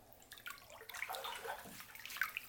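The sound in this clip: Bath water sloshing and lapping gently in a candlelit tub, a faint, continuous soft splashing with small bright drips, heard alone without talk.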